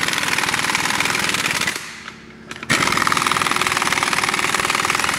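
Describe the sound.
A power tool runs wheel bolts in a workshop with a loud, rapid, machine-gun-like hammering rattle. It stops for about a second, leaving a quieter gap, then starts again at full force.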